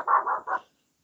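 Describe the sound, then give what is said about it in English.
A dog barking at night: three short, mid-pitched barks in quick succession, fairly loud, followed by silence. “And so does my dog tonight. Sorry for all the barking, but I'm sure it might be keeping everybody awake.”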